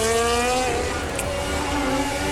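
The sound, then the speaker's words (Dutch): Formula 1 race car engine during qualifying at the Azerbaijan Grand Prix, a continuous high whine whose pitch eases down slightly and then holds steady at moderate loudness. “Ja, dan rijdt Piastri daar ook.”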